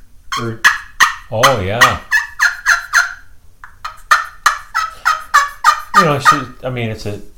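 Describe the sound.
Turkey call played with a striker on the outside edge of the call for a higher pitch: many loud, quick yelps in a rhythmic run, each note sharp and slightly raspy, with brief pauses between bursts.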